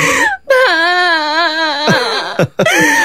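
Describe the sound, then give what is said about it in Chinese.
A young girl crying loudly, a sustained wailing sob with wavering pitch broken by short catching breaths and a few quick gasps near the end. “哎呦，好了好了，不哭不哭啊”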